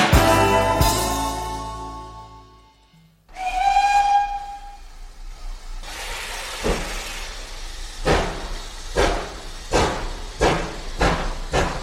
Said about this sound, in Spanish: Vamos a ir subiendo el tren, que va a pitar su salida.